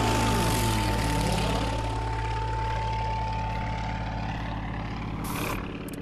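A racing propeller aircraft flies between pylons in an air race. Its engine makes a loud, steady, droning roar that drops in pitch as it sweeps past, and no one speaks over it.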